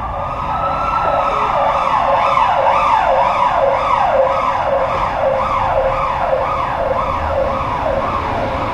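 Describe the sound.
An ambulance siren wails, called to two injured people. Its pitch sweeps up and down in a loud, steady cycle that repeats many times without a break, and no voices are heard.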